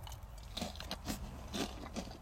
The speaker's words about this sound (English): Y'all, I'm just snacking while I'm doing this. So if you hear chewing and drinking in the background, then it is what it is. But I'm snacking.